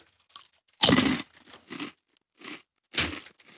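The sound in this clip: Someone bites into and chews a sour British dish, producing a few loud, wet crunches separated by short pauses and softer chewing in between, with no talking.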